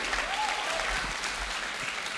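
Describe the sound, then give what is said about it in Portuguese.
A church audience applauds during a sermon with a dense, continuous patter of clapping at a fairly low, even level. “Deixa a irmã sozinha aí, não, aplaude aí.”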